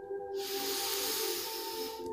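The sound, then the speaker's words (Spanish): A long, slow exhale through the mouth makes a steady airy hiss for about two seconds, rising in quickly and fading out at the end, over soft sustained tones. “y exhalamos por la boca, liberando todas las tensiones.”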